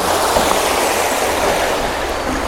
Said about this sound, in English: basically there's the river home, which is on my right, and you can hear it.